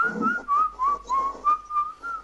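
Whistling by one person: a short run of several clear, steady notes at a fairly high pitch, evenly spaced and alone with no talk.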